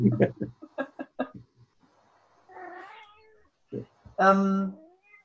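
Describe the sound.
A pet cat meows twice at home, drawn-out tonal cries that follow a brief stretch of talk, the second meow louder and longer than the first.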